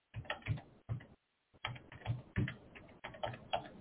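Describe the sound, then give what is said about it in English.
A number is typed on a keyboard: bursts of quick, muffled keystrokes are broken by one short silent gap. “So let me type the number.”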